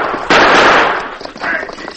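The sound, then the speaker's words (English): Gunfire in a Western shootout, as a frightened killer fires from a wagon jouncing across rocky ground: a loud, sharp blast with a long rough decay, then a second, softer burst. “The frightened killer opened fire.”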